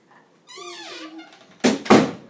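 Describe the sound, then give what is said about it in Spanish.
A door closing lands as two heavy, resonant thuds in quick succession, preceded by a brief squeaky, wavering tone. “Y cierra la puerta.”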